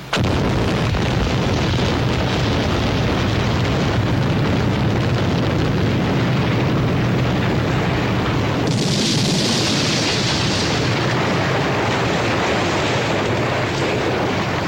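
Explosives implode a building in a controlled demolition in Minneapolis, Minnesota, producing a long, heavy, continuous rumbling roar. Partway through, a brighter hissing burst of debris noise rises over the rumble, which then goes on.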